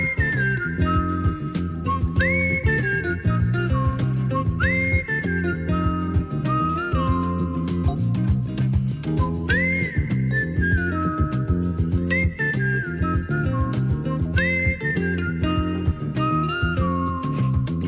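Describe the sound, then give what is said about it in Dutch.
A whistled melody from a film soundtrack, played by a trio with electric piano, carries a steady, bright tune with repeated upward-sliding notes over continuous instrumental accompaniment. “Heel even luisteren. Even fluiten.”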